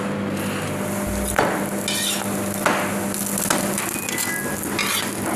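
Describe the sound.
A filled pastry wrapped in two thin layers of dough pan-fries in a pan at about 180 degrees, giving a steady, soft sizzle broken by a few sharp clinks of a utensil against the pan.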